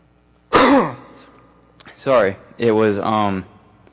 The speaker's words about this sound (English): I can't clear my throat here.